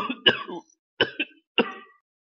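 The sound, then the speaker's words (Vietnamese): Harsh, hoarse coughing from an old man: a few rasping bursts in quick succession, each trailing off, separated by short gaps, with no talk. “Nói xong lại ho sù sụ.”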